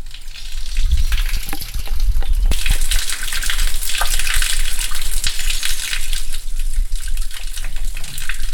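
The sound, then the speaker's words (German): A small brook flowing below a village, shrunk to a thin trickle on a very hot June day, gives a loud, steady rushing hiss dotted with small splashes and clicks, with no talking. “Was Sie hören, ist der Schweinbach, der unterhalb des Dorf Schweinbach fließt.”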